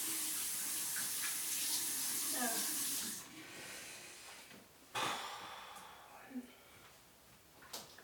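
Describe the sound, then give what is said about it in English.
Water running from a tap while hands are washed, a steady hissing flow for about three seconds that then stops, followed by quieter splashes and handling sounds. “I'll wash my hands. Just give me a second. No, I'm washing them.”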